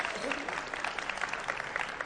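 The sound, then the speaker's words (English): Audience applause at a quiz session, a dense, steady patter of many hands clapping that holds at an even level for the whole clip. “Clap, round of applause for everybody who got 15.”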